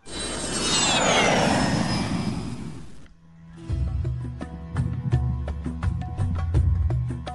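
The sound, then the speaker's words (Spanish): An airplane in flight roars loudly for about three seconds, its whining tone sliding downward, before the sound cuts off and music begins. “Cogemos un avión, un vuelo cortico, a ver a dónde nos lleva.”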